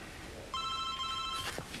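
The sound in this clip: A telephone rings with one steady electronic ring burst, bright and moderately loud, lasting just under a second, with no talk.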